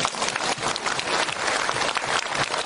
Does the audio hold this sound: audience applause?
yes